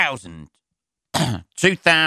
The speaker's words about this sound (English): he says, almost choking on his own throat.